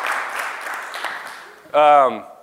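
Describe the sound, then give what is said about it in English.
Audience applause greeting a speaker's wife during a talk, a steady patter of clapping that gradually fades, followed by a voice speaking briefly. “Hey, let's all give her applause.”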